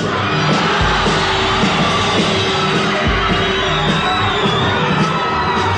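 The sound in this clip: A concert crowd shouts and cheers in a loud, continuous roar of many voices with no break, and a couple of low thumps sit underneath.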